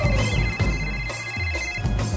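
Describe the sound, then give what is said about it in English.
A telephone rings during an outgoing call, sounding as a steady electronic ringing tone held throughout the short stretch over a low background. “Let's call her. It's ringing.”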